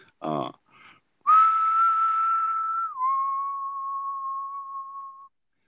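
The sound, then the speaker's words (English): Whistling by a person imitating an ethereal two-tone whistle: a long, clear higher note steps down to a slightly lower sustained note, heard alone after a brief moment of speech. “the sound was a two-tone whistle, and it was like,”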